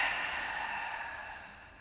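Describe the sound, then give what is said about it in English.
A slow, soft breath during a guided breathing exercise, a faint airy exhale that holds steady and gradually fades, alone with no talk. “take one deep breath in through the nose and out through the mouth. So inhale. And exhale.”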